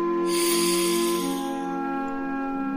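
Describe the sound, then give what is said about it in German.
A deep, long inhalation through the nose, a soft airy rush over sustained tonal music, swelling then easing off within a couple of seconds. “Atme durch die Nase tief und lange ein und spanne dabei deinen ganzen Körper an.”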